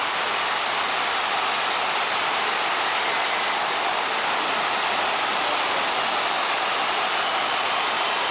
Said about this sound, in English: You can really hear the thrill and even the shock of the crowd.